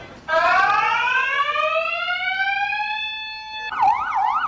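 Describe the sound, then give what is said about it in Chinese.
An electronic alarm set off during a post office robbery: a loud, harmonic tone glides steadily upward for about three seconds, then switches to a fast warbling wail. “邮局行员第一时间冷静按下警铃，并通报警方。”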